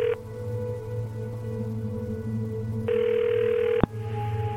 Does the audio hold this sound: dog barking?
no

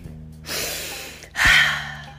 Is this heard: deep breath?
yes

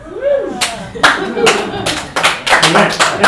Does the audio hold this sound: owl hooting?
no

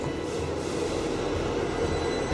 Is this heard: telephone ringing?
no

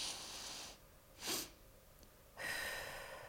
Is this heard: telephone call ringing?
no

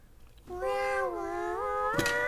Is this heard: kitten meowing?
yes

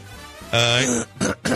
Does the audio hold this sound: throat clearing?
yes

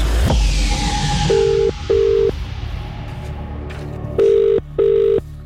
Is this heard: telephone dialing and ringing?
yes

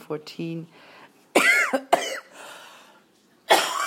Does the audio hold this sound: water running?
no

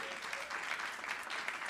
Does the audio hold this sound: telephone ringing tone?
no

